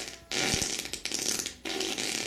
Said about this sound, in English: All right. So that's all the farts.